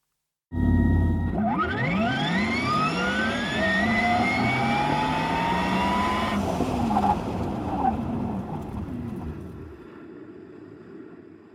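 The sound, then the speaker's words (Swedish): Porsche Taycan electric sports car accelerating hard, a loud electric whine of layered tones climbing steadily in pitch for about six seconds over a broad roar, then cutting to a lower rush that fades away. “Medan Porsches eldrivna sportbil Taycan låter så här när den gasar iväg.”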